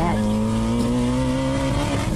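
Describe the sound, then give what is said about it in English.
Race car engine at high, steady revs during a race, a loud, sustained buzzing note that climbs slightly in pitch with a rough mechanical undertone. “Some of you don't think my minivan really makes 1,000 horsepower, so here are some racing videos.”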